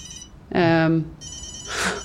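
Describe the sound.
A telephone rings in one short, loud tonal burst, with fainter noises just before and after it.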